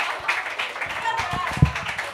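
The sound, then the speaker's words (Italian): Comedy club audience applauding at a stand-up night, scattered clapping that rises and falls under a murmur of voices. “Un applauso.”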